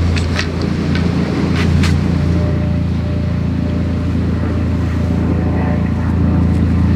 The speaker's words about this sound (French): C'est un hélicoptère.